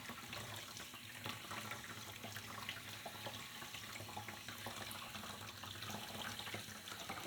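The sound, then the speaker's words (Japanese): Lukewarm water runs steadily over hair during a hair wash, a faint, even stream of flowing water with no pauses and no voices. “ではまずぬるま湯で髪の毛を濡らしますね。”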